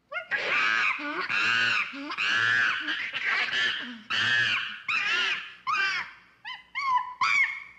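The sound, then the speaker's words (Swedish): An angry chimpanzee, recorded from a video, screams in many loud, harsh, screeching calls. The calls come in quick succession with short breaks between them, and their pitch swoops up and down. “Sök på angry chimp sound på YouTube så fattar du. Och det har jag ju självklart gjort då. Och det låter så här.”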